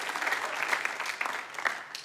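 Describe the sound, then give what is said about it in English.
Audience applause from a church audience during a sermon: steady, even clapping from many hands, moderately loud and sustained throughout. “Give him a huge round of applause if you know what I'm saying.”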